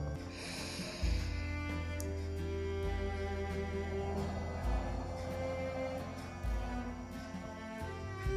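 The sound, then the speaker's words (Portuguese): Slow, deep breaths in and out during a guided mirror exercise, a few soft airy inhales and exhales over gentle sustained background music. “E agora você respira bem fundo, três vezes. Vamos comigo.”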